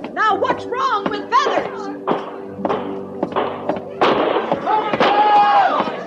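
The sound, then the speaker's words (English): Several sharp gunshots crack out near the stockade of a frontier army fort at Fort Laramie. They come as irregular, widely spaced reports mixed in with the excited speech of men talking over them. “Where are those shots coming from, Captain?”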